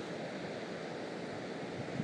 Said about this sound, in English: Holy smoke. That is some air on the move.